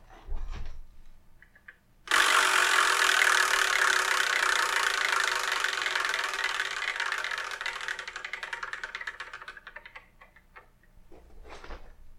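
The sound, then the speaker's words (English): A Wheel of Manga prize wheel spinning: a sudden, dense, rapid ticking whir that holds steady for several seconds, then gradually slows into separate clicks and fades to a stop. “So, let's spin and see what we're reviewing in the next episode, shall we?”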